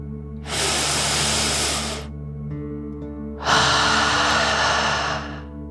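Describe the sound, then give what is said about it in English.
Deep breath in and out during a guided relaxation: one long airy inhale followed, after a short pause, by a longer, louder exhale, both over a steady low background tone. “let's take another deep dragon breath in and out”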